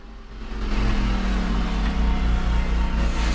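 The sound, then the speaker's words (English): A snowmobile engine drones as a security guard rides up outside a trailer, swelling in the first half second, then holding a steady, loud, low rumble with no voices. “Curtis, a security guard who's outside the trailer, drives up to them on his sled.”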